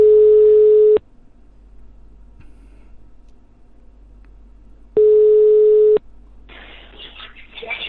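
Telephone tone heard while placing a call. Two steady, mid-pitched beeps of about a second each are separated by a long pause of faint line hiss, and a rough burst of noise follows at the end.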